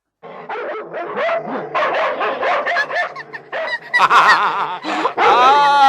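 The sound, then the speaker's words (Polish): Small dogs barking while chasing a hare, a busy stream of many excited yips, barks and whimpers, loud and continuous, with no pauses between bursts. “Pieski, weźcie się do roboty, złapcie zajączka i przyprowadźcie do mnie.”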